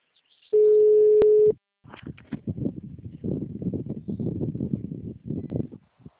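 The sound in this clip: A telephone tone after a dropped call: one steady, mid-pitched beep of about a second, then a voice talks on the line.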